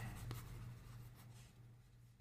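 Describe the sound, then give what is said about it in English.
A pen scratches faintly as an answer is written out, with soft, uneven strokes on paper against near silence. “All right, I'm going to write my answer.”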